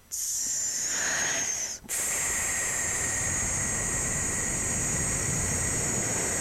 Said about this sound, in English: I want you to take a big breath and breathe out.